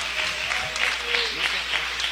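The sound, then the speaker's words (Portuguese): A church audience applauding for Jesus, a steady rippling clatter of many hands at moderate level, with people talking over the clapping throughout. “Palmas para Jesus, irmãos.”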